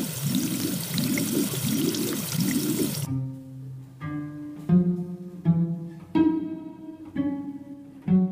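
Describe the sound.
Water splashes as someone cools a feverish face, with four rhythmic sloshing surges. The splashing then stops abruptly and gives way to a run of separate plucked musical notes.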